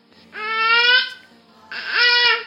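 A baby babbles in two drawn-out, voiced, tonal sounds separated by a short pause. The second sound starts with a wobbling glide before it steadies. Both are moderately loud and heard alone.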